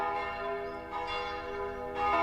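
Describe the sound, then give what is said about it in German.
Church bells ringing: sustained, resonant metallic tones that hang and overlap, renewed by a few fresh strikes, with no talking. “Bis es aufhört zu läuten.”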